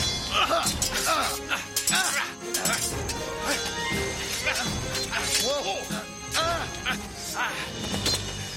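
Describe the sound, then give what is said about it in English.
Swords clash in a courtyard sword fight: repeated sharp metallic impacts and ringing crashes, fast and irregular, mixed with voices. “Antoninus had an adventure like no other, and it all started in the courtyard of his home in the most exciting way, a sword fight.”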